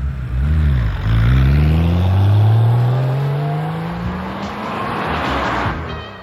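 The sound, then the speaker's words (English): A car drives off in Germany. Its loud, continuous engine note rises steadily in pitch as it accelerates away, with no voices. “we have to drive all the way back to Stuttgart. Tell you what, I'll drive, you stay here and listen to Brancaccio.”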